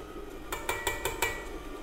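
Light clinks and taps as an egg goes into creamed butter and sugar: a quick run of about five faint, sharp knocks in under a second, with no voices.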